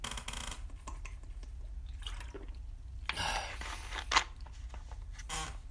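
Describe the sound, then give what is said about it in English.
Alpha Brain mango-flavored drink being sipped: faint liquid slurps and small wet sounds, with a couple of brief clicks from the container. The sounds are quiet and heard alone. “I'm out of Liquid Kratom, so I'm drinking some Alpha Brain mango flavor. Let me get some of that.”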